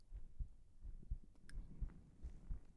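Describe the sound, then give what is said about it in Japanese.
A heartbeat sounds as soft, low, muffled thumps in paired beats, repeating in a steady, even rhythm throughout and staying faint. “私は心臓の音を聞くと落ち着けるし、よく寝れた。”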